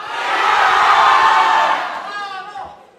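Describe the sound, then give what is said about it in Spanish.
University students in a quiz contest cheer and shout for their favourite contestant. Loud crowd cheering swells to a peak, then subsides, with a few voices still whooping as it fades. “así que por favor que se escuchen fuerte los ánimos y los apoyos para su participante favorito.”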